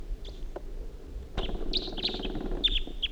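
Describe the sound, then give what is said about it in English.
A wild bird calls as it flies away, giving several short, bright, high chirps over a steady rushing background noise. “Wild bird's flying away now.”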